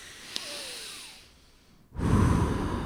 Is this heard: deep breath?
yes

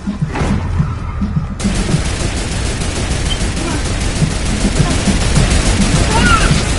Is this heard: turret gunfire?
yes

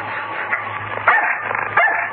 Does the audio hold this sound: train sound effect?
no

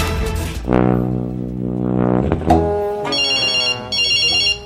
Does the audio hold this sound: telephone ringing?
yes

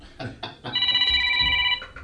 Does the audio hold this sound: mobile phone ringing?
yes

